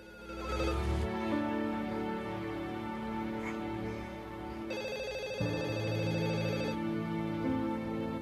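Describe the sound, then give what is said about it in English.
A telephone rings in a Los Angeles apartment that doubles as a studio, its repeated tonal rings faint and continuous over sustained tones, with no voices. “The phone rings in Britt's Los Angeles apartment come studio.”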